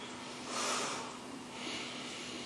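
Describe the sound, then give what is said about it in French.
Air is forced out through the nose in a breathing exercise, like blowing the nose. Two breathy nasal exhalations swell and fade over a faint, steady background hiss. “Et vous faites souffler l'air par votre nez. Comme si vous vouliez vous moucher, tiens. Et vous pressez. Et vous soufflez par votre nez.”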